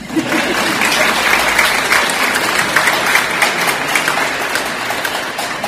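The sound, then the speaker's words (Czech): Audience applause breaks out after a talk: dense, steady clapping that stays loud and even throughout with no voices over it. “Prosím, potlesk.”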